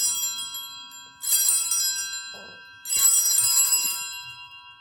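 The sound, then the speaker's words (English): Bells ring at the elevation of the host and chalice during Mass. Bright, sustained ringing fades, then two loud bursts of clashing bell tones follow, each decaying slowly. “So at the epiclesis, the bells ring with the single, and then at the elevation of the host and the chalice, you hear.”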